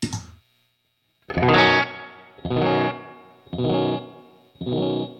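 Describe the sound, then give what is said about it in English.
Aliasing artifacts from an effects unit set to a slow tap tempo, not filtering correctly: a brief opening sound, a gap, then four evenly spaced, heavily distorted, ringing bit-crushed bursts. “Whoa. It's aliasing. Yeah. You hear that ringy? Yeah. So there's frequencies being generated by the fact that it's not filtering correctly.”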